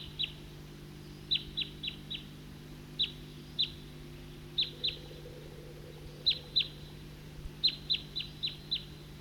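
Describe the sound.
A flock of birds giving the same call type: many short, high chirps arriving in quick clusters of two or three, faint, over a steady low hum.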